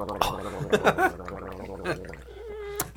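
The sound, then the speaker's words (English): Wet gurgling and slurping as someone takes a strong sip of a drink and aerates it in the mouth while tasting it, with irregular bubbly bursts and swishing, and a brief whistling tone near the end. “Gurgling wasn't on our list of noises that Charlene either liked or disliked.”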